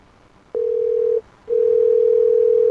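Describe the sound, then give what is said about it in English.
Ringing tone of an outgoing telephone call: a steady, pure single-pitch tone sounds twice, a short burst and then, after a brief gap, a longer one running to the end. “Three rings. I think we might be ending up in the voicemail again.”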